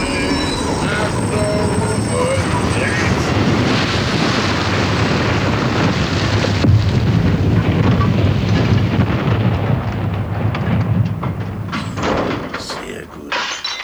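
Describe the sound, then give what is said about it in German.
A steam locomotive runs loudly through the whole clip, a dense, continuous roar and rattle with thuds. Voices are partly buried under the din. “Die Lokomotive. Man versteht jetzt ein eigenes Wort nicht mehr.”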